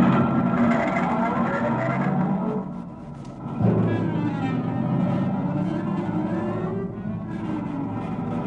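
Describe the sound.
Engine of a new car driving along, a steady rumbling drone that dips briefly partway through, then swells again and carries on to the end.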